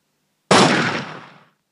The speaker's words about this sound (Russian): Вандершпуль, вытащил из-за спины гаусс-пистолет и выстрелил Данкину